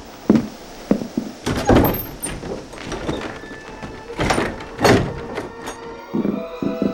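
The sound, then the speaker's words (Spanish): A house door being opened by a child for visiting neighbours, heard as several dull thumps and knocks of varying loudness over a steady, noisy background. “Niño, abre la puerta. Mira, ahí viene uno de los chiquititos a abrirnos la puerta.”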